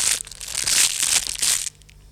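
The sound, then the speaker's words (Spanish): Duck eggshells crack as ducklings hatch: a dense, crisp crunching and crinkling that runs steadily for under two seconds and then drops away to faint noise. “la señora Pata exclamó: ¡Ya! ¡Ya rompen el cascarón nuestros hijos!”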